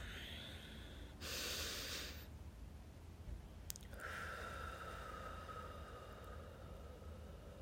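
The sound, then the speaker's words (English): A quick deep breath, very faint, with a short burst of rushing air followed later by a longer, softer stream of breath. “I would like to just invite you to take a quick deep breath.”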